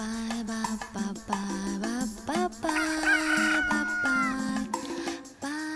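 A rooster crows and clucks repeatedly during a ritual, its strained, wavering calls bending up and down in pitch within a dense, busy layer of tonal sounds.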